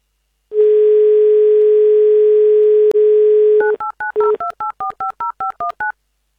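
A telephone line gives a steady dial tone for about three seconds, then a quick, evenly spaced run of many short touch-tone dialing beeps follows, loud and with no talk, as a call fails to connect.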